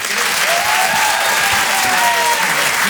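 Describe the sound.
Comedy club audience applauding loudly and steadily as the next performer is announced, a dense wash of clapping with some cheers and whistles mixed in, and no clear speech.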